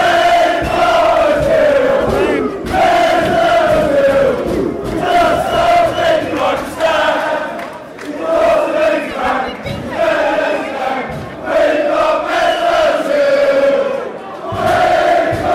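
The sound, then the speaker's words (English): Arsenal fans sing in the stadium before a game. The massed crowd chant is loud and rhythmic, rising in repeated phrases with brief dips between them, and it continues throughout. “The Arsenal fans are singing, and you'll be able to hear the exact moment the batteries conk out on the recorder.”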